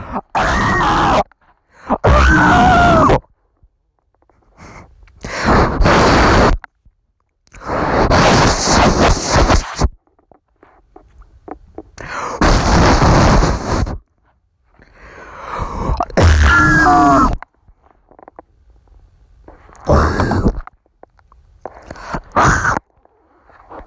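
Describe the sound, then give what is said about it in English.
A person screams in a series of loud, strained bursts separated by short silent gaps, each cry rough and voiced with wavering pitch. “I'm just gonna scream.”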